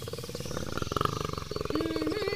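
A lion roars with a rough, pulsing growl that carries strong harmonics and stays loud and continuous throughout, rising slightly in pitch toward the end.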